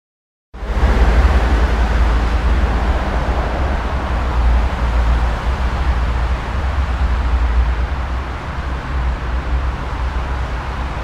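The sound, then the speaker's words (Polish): Road traffic roars behind acoustic noise barriers fitted along railway tracks, as a steady low rumble with broad hiss. It begins abruptly after a brief silence and holds at a constant, fairly loud level throughout. “Tu słyszymy ponownie ruch uliczny, ale teraz wzdłuż torów zamontowano ekrany akustyczne.”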